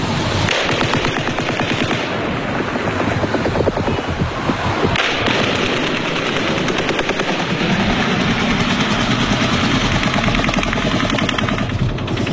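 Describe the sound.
Rapid, relentless gunfire in an unedited recording, dense bursts of shots running continuously, loud enough to overload the microphone.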